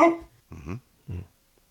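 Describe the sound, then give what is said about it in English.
A dog barks in a few short, loud bursts separated by brief pauses. “Answer. There you go. Okay. Give him some barks there.”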